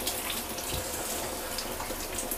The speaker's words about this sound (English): So, right now I guess I'm just gonna be taking a shower.